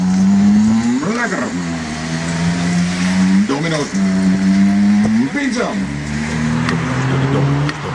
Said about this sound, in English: They have scooters where they go out and they deliver their pizzas. Yeah. They're electric, so they needed some extra sounds. Sounds like this.